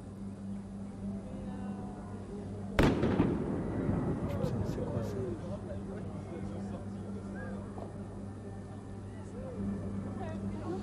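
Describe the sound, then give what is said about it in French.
A single sharp bang of a tear gas canister being fired at a protest, followed by a rumbling burst and continuous crowd noise under a low steady hum. “Voilà, on tire les lacrymos.”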